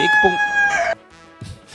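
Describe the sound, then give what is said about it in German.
A farmyard rooster crows once, a loud, strained call rich in harmonics lasting under a second, followed by near quiet with a few faint, brief noises. “Ich habe gehört, dass das unser Hahn war.”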